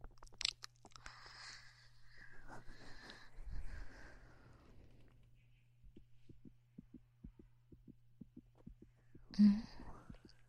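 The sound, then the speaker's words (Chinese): Fast heartbeat, a steady series of soft low thumps in quick regular rhythm over a constant low hum, faint throughout, with some rustling noise before the beats settle in. “其实您的心跳得好快呀，怎么了？”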